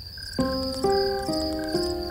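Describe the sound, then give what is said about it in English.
A dense mass of crickets chirps in a high, steady, pulsing trill, while low sustained tones beneath it change about every half second. “One obvious possibility is that the device could have been a mass of crickets.”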